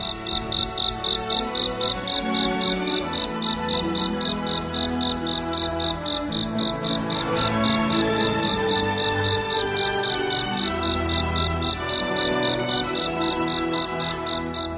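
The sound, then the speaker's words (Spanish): A cricket chirping at night in a rapid, even train of high pulses that repeats steadily throughout, heard over continuous soft background music. “Y el grillo ya pudo cantar toda la noche y fue muy, muy feliz.”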